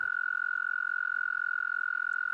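Male toads trilling their mating song: one high, steady, rapidly pulsing trill held at an even pitch and loudness without a break for the whole clip.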